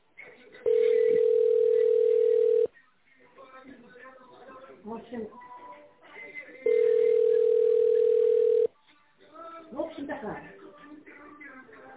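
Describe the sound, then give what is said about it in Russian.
A telephone dial tone sounds twice while a number is being dialled, each a steady, mid-pitched tone lasting about two seconds, with a person talking in the gaps between them. “Хорошо, набираю номер.”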